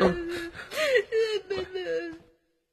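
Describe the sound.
A woman crying, with wavering, whimpering wails and sobbing breaths rising and falling in a short, tearful outburst that fades out at the end.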